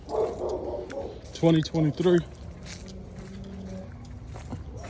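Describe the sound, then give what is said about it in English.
Dogs bark near a school: three sharp, quick barks in a row, under steady background noise and a man talking. “Hopefully these dogs don't bite, get out and bite someone's kids. You can hear them over there.”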